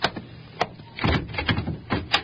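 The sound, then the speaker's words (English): A locked wagon door being tried and rattled: several sharp knocks and clunks with bursts of rattling, moderately loud, with no voices. “Hey, this door. It won't open. Maybe it's stuck. Kick it. It's locked from the outside.”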